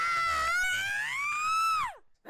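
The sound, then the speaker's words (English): A woman screams as she attacks a man: one sustained, high, harmonic cry lasting about two seconds. Its pitch lifts slightly midway, then drops sharply before it cuts off into silence. “Suddenly, like a cheetah on the hunt, a naked woman sprung from the jungle and attacked him, screaming and thrashing.”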